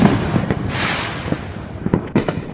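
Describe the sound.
Gunfire in a Chicago neighborhood during a shooting: several sharp, loud cracking pops come in quick irregular bursts, with a brief rushing noise before them.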